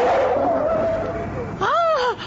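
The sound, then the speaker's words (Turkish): Cars whizzing past in busy Istanbul city traffic, a loud continuous rush of passing vehicles with a high squealing tire tone riding over the engine noise. “Baksanıza, arabalar vızır vızır geçiyor. Aman arabalara dikkat edin Belgüzar Hanım.”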